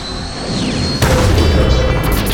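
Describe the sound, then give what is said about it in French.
A machine about to fire is blown up in a video game. The blast hits as a sudden burst partway through, over continuous loud, noisy game sound. “La machine qui allait tirer s'est littéralement fait éclater!”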